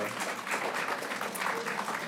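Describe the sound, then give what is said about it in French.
An audience applauds a bookseller: steady, soft clapping that forms an even, fizzing wash of sound, faint and unbroken for its short length. “ça se fait pas, mais on peut vraiment l'applaudir”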